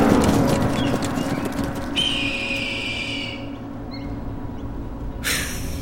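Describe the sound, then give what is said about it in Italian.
Horses gallop in a steady, dense rumble of hoofbeats, with a high whistle-like tone running through the middle and a short bright burst near the end. “Avanti, soldati! Al galoppo!”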